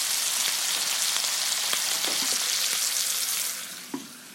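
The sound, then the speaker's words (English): Steak fries in a pan as its fat renders, giving a dense, steady sizzle with scattered crackles. The sizzle eases near the end, where a single small pop stands out. “our steak goes in. Just gonna position it. Leave it alone. So I'm not pressing it down, I'm not getting into it, I'm letting it sit, I'm letting the fat do the cooking.”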